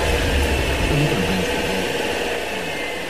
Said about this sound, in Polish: Pan teraz jedzie samochodem.